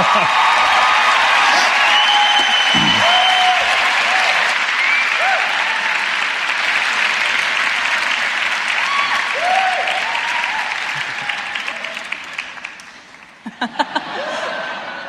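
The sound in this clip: Loud audience applause welcoming a speaker to a festival session, sustained and dense for roughly twelve seconds, then thinning out and dying away near the end.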